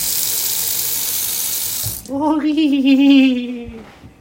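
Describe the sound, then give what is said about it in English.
A kitchen sink tap runs with a steady, loud rushing hiss for about two seconds. The hiss then gives way to a wavering, voiced tonal hum that fades near the end. “Turn on the sink. Sink sounds like this.”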